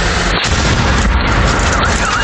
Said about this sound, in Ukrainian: А це вже FPV вгатив біля муніципального автобуса просто у середмісті. Вибуховою хвилею вибило вікна.